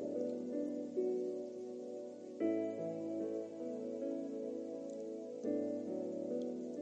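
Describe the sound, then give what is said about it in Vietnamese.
Light early-morning drizzle gives a faint, soft, continuous patter beneath a gentle, steady music bed. “Sáng sớm, bầu trời vẫn đổ mưa phùn.”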